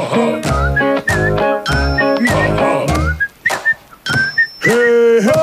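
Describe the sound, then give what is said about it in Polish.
A radio station jingle signal from a Polish public radio program, a bright, loud musical sting of bell-like chimes and whistling, sliding tones over deep rhythmic bass notes. “Ten sygnał oznacza, że w studiu Trójki już oczywiście Sylwia Zadrożna.”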